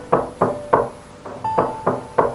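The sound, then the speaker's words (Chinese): Seven heavy knocks strike a door hard in a steady, insistent rhythm. Each thud is loud and dull, with short quiet gaps between blows. “何志军左忽悠右忽悠地上了楼，到了门口便使劲地敲门。”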